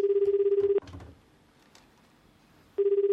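Ringback tone of an outgoing telephone call in Japan: a steady, low, rapidly pulsing ring. One burst ends, a pause of about two seconds follows, then another burst begins.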